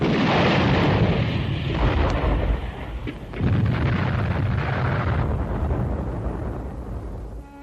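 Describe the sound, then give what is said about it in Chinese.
Enemy artillery shells exploding on an abandoned battle position: a loud, continuous roaring rumble of blasts that dips briefly midway, surges again, then slowly fades. “敌人的炮弹便在空阵地上爆炸”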